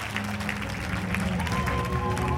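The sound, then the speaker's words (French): Audience applause greets a guest being introduced as Emmanuel Macron's special adviser, a steady patter of clapping with light crowd noise that carries on through the whole short stretch. “Merci de faire un triomphe au conseiller spécial d'Emmanuel Macron, Xavier Nielfix.”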